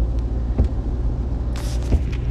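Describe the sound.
Steady low rumble of a car driving along a road, with engine and tire noise holding even throughout and a few faint higher rustles on top.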